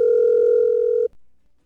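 A telephone ringing on a call, heard from the caller's end as a single steady electronic tone lasting about a second before it cuts off abruptly into silence.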